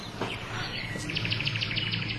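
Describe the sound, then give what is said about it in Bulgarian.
Swallows chirping near their nest at a village church, a quick run of bright, high chirps repeating in a steady series, fairly loud and without voices. “А там горе гнездо ли? Да, на лястовички.”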